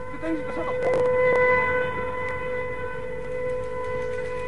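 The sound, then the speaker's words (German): An air raid siren wails in a sustained, loud tone with strong harmonics, swelling early and then holding steady to the end. “Ach, hört denn das nicht bald auf? Das Sirenengeheul macht einen ja ganz nervös.”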